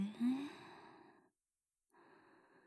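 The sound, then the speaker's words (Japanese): A deep breath drawn in during guided breathing, a soft airy rush lasting just over a second, followed by a short silence before another breath begins. “深呼吸をしましょうか。いくわよ。吸って。”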